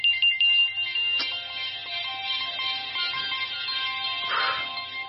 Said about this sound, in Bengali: যার ফোন বাজছে তিনি একটু প্লিজ সাইলেন্ট করুন। কার ফোন বাজছে? সাইলেন্ট করুন।